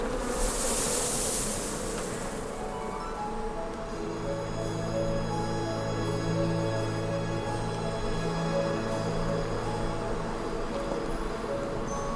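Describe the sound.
Honeybees swarm over an opened hive frame of brood and pollen, a dense, steady buzzing drone that holds evenly throughout with layered humming tones and no voices.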